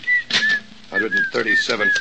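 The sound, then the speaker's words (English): A person whistles, several short, wavering high notes rising and falling, mixed with voices and clattering sounds in between. “Look, stop that creepy whistling, will you?”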